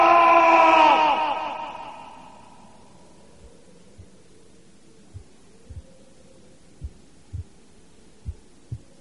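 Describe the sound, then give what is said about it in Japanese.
A heartbeat sound effect from an audio drama, starting again after a loud, noisy burst fades away: low, dull thumps come in faint and sparse, then grow stronger into paired lub-dub beats. “鼓動が息を吹き返し、動脈が生命のビートを刻む。”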